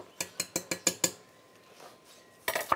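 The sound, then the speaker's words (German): Metallic clinks of a utensil against a pot while sage is fished out of simmering liquid: six quick, evenly spaced taps, then after a pause a short cluster of a few more, fairly faint overall. “Das fängt jetzt hier an zu köcheln. Jetzt fische ich den Salbei hier mal kurz wieder raus.”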